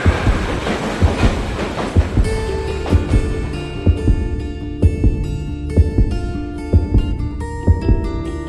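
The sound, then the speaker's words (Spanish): A train heading to Eibar approaches a station, its wheels beating a loud, steady clickety-clack of regular thumps over a continuous heavy rumble. “Gracias, te dejo, que pierdo el tren. Y he quedado con un cliente en Eibar. Tengo destino a Eibar, aproximándose a estación.”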